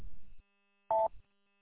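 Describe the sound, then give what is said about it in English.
A single short electronic beep from a county-issued XTS handheld radio, its no-comms alert sounding while it hunts for a site: one brief, steady mid-pitched tone standing alone. “that's probably the no-comms beep. I turned the no-comms beep on mine. Usually you'll get that when it's hunting for a site.”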